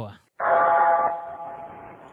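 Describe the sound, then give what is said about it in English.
A bell on the haunted Redwoods train tolls once with a bright, sustained ringing tone that slowly fades away. “The bell's tolling for me. Oh, my God. I think the train in the Redwoods is... The haunted Redwoods train has died.”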